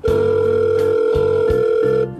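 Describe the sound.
A telephone dial tone follows a handset being hung up. The tone is a steady, mid-pitched continuous hum with a lower pulsing layer beneath. It lasts about two seconds, then stops abruptly.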